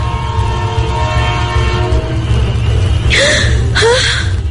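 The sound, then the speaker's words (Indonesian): A train horn blows a long, steady tone over the heavy rumble of a moving train and fades after about two seconds. Two short, breathy gasps or cries follow over the continuing rumble. “suara kereta. Dari arah berlawanan aku melihat ada kereta api yang meluncur ke arahku.”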